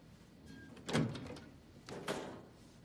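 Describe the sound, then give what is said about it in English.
Two small metal doors on wall-mounted electricity boxes near a nurse's station opened one after the other, each a short clattering knock with a metallic rattle, about a second apart. “The little one, above. 2 doors, open them.”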